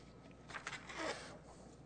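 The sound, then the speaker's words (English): A page of notes is flipped, giving one brief, soft papery rustle lasting about a second, faint against a quiet background. “I tend to go down rabbit trails sometimes, so I have to write notes. And I apologize for flipping pages, but I'll move along.”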